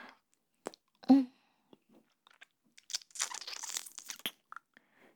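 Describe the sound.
Crunchy bites and chewing of food, one loud crunch early on followed by a dense cluster of quieter crunching and soft mouth sounds, faint and alone.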